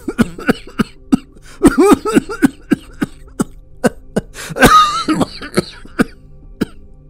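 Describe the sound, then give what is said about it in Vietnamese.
An angry father coughing again and again: many sharp, harsh coughs in an uneven rhythm, with throaty, voiced hacking bursts in the middle. The coughing is loud and heard alone, with no talk. “Bố giận quá, lại ho tiếp.”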